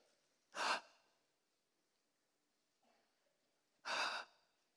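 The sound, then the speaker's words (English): Two sharp, breathy inhalations during a sermon, each loud and brief, separated by a few seconds of near silence with only a faint short sound between them. “An inhalation.”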